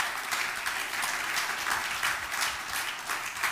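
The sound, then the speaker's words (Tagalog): Applause from a church audience during a Resurrection Sunday service: steady, sustained clapping from many hands that fills the whole clip at an even level, with no talk over it. “Palakpakan po natin yung Panginoon.”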